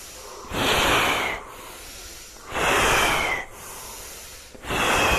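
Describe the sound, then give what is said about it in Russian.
Fast, forceful breaths from a kriya yoga breathing exercise: three loud, hissing bursts of air separated by quieter pauses, each lasting about a second, the last one cut off at the end. “Дышим, побыстрее. Полноценный вдох длинный.”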